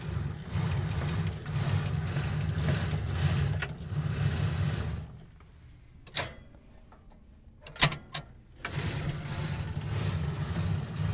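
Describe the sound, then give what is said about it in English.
Microfilm reels spin on a reader in a family history library in Salt Lake City, giving a steady mechanical whirr that stops. A couple of sharp clicks follow, then the whirring starts again. “Sounds of spinning reels of microfilm are a constant in the Family History Library in Salt Lake City.”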